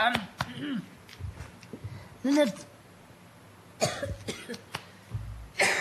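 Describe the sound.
A person coughs a few times in short, harsh bursts, mixed with other vocal sounds and brief noises in between.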